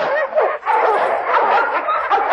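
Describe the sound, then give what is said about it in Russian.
Dogs bark and yip in a Cossack village: a dense, overlapping run of sharp, high barks that fills the whole clip with hardly a pause. “Собаки брех подняли, спасу нет.”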